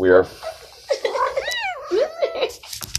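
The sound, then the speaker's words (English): A cat meows beneath people talking, giving a few short, wavering cries that rise and fall in pitch amid the conversation. “Rule number three, you're always going to hear the cat.”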